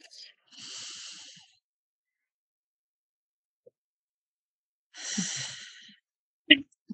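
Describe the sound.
Deep breaths drawn in, heard as two long, soft, airy breaths separated by several seconds of silence, followed by a faint brief click.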